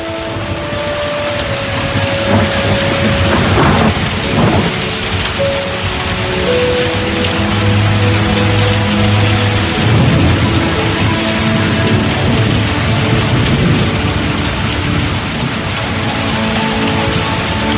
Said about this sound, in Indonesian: Tak lama hujan akhirnya turun.